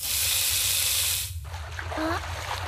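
Water rushing in a bathtub at bath time, a bright, loud hiss that cuts off abruptly after about a second and a half, leaving quieter sounds.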